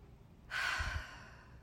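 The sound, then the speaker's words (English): One deep breath drawn in, a steady, airy rush of moderate loudness that lasts about a second and fades slightly toward the end. “let's take a couple deep breaths before we get started, simply because I need them. And who doesn't like a breath? Who doesn't need a breath? All right, ready? Breathe in.”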